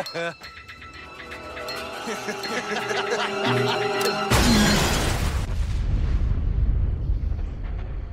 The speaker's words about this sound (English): The hillbillies blow themselves up